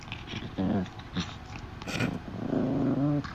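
A dog growls and grumbles while biting a person. A few short, low, throaty growls come in bursts, and the last one is longer and louder.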